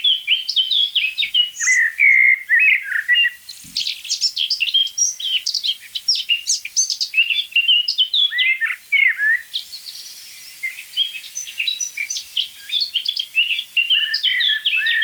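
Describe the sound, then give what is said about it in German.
Eurasian blackbird singing: a long, continuous run of varied, fluting and warbling phrases, loud and clear, with only brief gaps between the melodic motifs. “Die Amsel schön getragen, in Dur, weich und wohltuend.”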